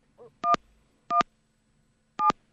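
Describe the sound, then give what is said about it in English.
Telephone keypad dialing tones: three short, clear electronic beeps at uneven intervals, each a steady two-note pitch. A faint soft sound comes just before the first beep. No talk is heard. “Somebody's dialing.”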